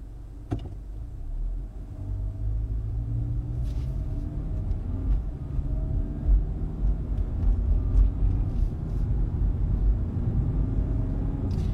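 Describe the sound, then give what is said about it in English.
A car driving along, heard as a steady low engine and road rumble that continues throughout with slight swells in loudness and no talk. “So that's why I'm driving away, getting out of here before it melts.”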